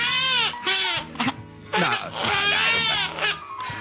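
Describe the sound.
A woman crying in long, high, wavering wails and sobs that run almost without a break, loud and strained, with short catches of breath between cries.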